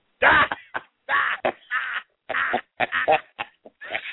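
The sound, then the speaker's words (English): Harsh, hacking smoker's coughs come in a string of rough, raspy bursts of uneven length, separated by short gaps, with some throaty wheezing between them. “Like, God, he sounds like my grandmother over there hacking on a Salem.”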